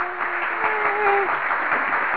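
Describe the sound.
Audience clapping for a departing guest: a dense, steady wash of applause runs for about two seconds, with a voice briefly cheering over it.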